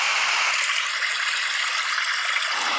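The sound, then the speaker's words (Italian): A babbling stream plays as a background sound, a continuous bright rushing hiss of water that stays even throughout, with no voices. “Ed è il sistema dei suoni di sottofondo. Pioggia. Ragazzi, ruscello.”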